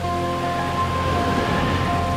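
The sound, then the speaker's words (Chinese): Steady, dense hiss of rain as a light shower turns into a heavy downpour, with faint sustained tones underneath and no clear breaks. “这时天空开始下雨，小雨变成大雨，”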